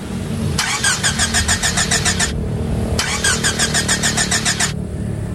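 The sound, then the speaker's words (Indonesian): A car engine cranks but fails to start, with two long bursts of rapid, rhythmic starter whirring separated by a short pause. No voices are heard. “sepertinya kendaraan kita tidak mau diajak bekerja sama, Pak. Ya Tuhan. Coba jalankan lagi.”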